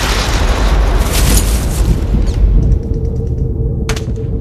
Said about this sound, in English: A shell explodes inches away and knocks Miller on his face.